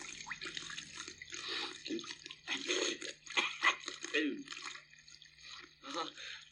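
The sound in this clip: Liquid gushing and splashing, meant as oil spurting up out of the ground, in uneven surging bursts over a low steady hum.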